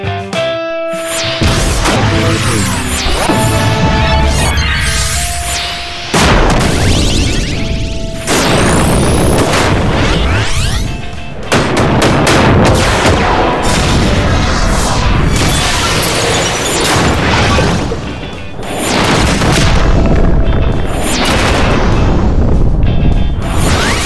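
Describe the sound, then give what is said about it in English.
A loud, nonstop barrage of Final Fantasy XI weapon skill effects: crashes, booms, whooshes and bursting pops layered one after another with no talk. “So this is our 21 weapon skill salute for Final Fantasy XI.”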